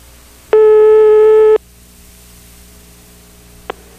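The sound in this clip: A telephone ringback tone plays during an outgoing call: one burst of a low, buzzy, steady tone lasting about a second. It is followed by quiet line hiss and hum, then a faint click.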